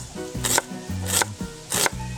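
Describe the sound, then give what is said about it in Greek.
A knife slices an onion into thin slices, giving three crisp cutting strokes in an even rhythm over a low, steady tonal background. “Λάχανο ή iceberg. Λεπτές φέτες στο κρεμμύδι.”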